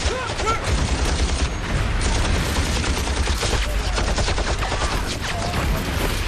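Machine gun fire during a battle, a dense, loud and unbroken stream of rapid shots that fills the whole clip with a steady crackling roar.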